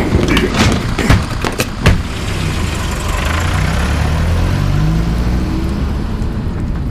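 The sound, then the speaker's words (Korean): A Kia Bongo van's engine driving away: a few sharp knocks at the start, then a steady low engine drone whose tone climbs gradually as it pulls off. “봉고차를 타고 도망가 버렸어.”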